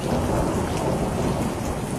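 A thunderstorm with rain: a dense, steady hiss of heavy rainfall over a deep rumble of thunder, staying evenly loud throughout.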